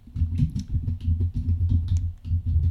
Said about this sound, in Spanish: No quiero hacer mucho ruido cada vez que tecleo porque me aparecen ahí toda el ruido del teclado